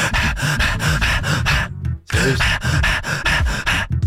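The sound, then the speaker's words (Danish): A person imitates a German shepherd panting hard after a fast run, with rapid, loud, rhythmic breaths and one brief pause midway. “Men den lyd, en schæferhund laver, når den har løbet rigtig stærkt.”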